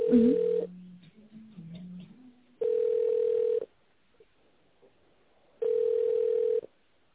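Telephone ringback tone plays while a call to a bakery plant is transferred to reception: three steady mid-pitched beeps of about one second each, separated by long silent gaps. Lower hold tones briefly accompany the first beep.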